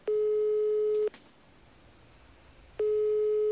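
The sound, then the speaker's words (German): Telephone ringing tone while calling a carpenter: two steady, identical beeps, each about a second long, separated by a longer quiet gap with faint hiss. The second beep is cut off at the end. “Und den werde ich jetzt einfach mal anrufen.”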